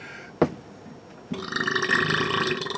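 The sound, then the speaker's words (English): A long, loud burp after eating a panzerotto: a short sharp burst, then a sustained, buzzy, rumbling belch that carries on to the end. “that was a lot of burp. That was a ton of burp.”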